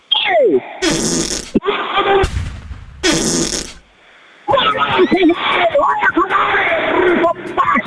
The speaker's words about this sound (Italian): Ha sentito che bomba che mi è uscita dal culo?